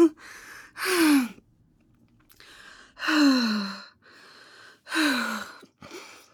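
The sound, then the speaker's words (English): An anxious person takes deep breaths. Three heavy voiced exhales, each sighing downward in pitch, alternate with softer breaths in, at a slow, even pace. “Okay, I'll breathe. I'll take deep breaths.”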